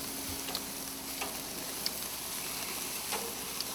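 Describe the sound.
Bacon sizzles in a frying pan with a quiet, steady crackling hiss and a few faint ticks and pops scattered through it. No one talks.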